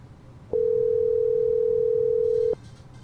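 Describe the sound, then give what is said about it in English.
A telephone ringing tone heard by the caller while calling a character in a video game: one steady, pure electronic tone lasting about two seconds, switching on and off abruptly, with nothing else prominent around it. “That's his phone ringing.”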